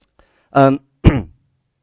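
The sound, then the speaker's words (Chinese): Someone with a years-long dry throat clears it and coughs: one voiced, grating throat clear, then a single sharp cough, loud and alone in quiet. “Excuse me， 我咳嗽哈，不是感染哈。我这个已经咳了几年的了哈，我是喉咙干旱啊”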